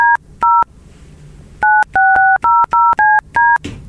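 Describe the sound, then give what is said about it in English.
Touch-tone keypad beeps as a phone number is dialed: a quick run of short, evenly loud two-tone pips, two close together, a pause, then several more in rapid succession over a faint low hum. “The number you have dialed is not in service.”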